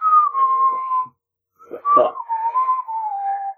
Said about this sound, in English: You hear that? That's me whistling innocently.